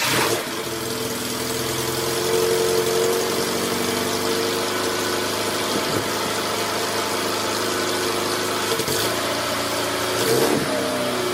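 An Opel Kadett, a small-to-mid-size family car, runs its engine loudly and continuously, with the revs climbing and settling in waves. A few brief sharp knocks sound over the steady mechanical drone, and no voices are heard.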